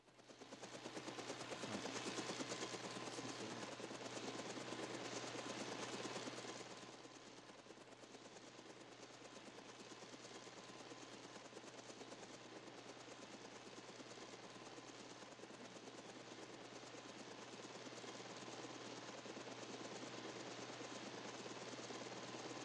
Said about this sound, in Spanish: Al principio suena un helicóptero, creo.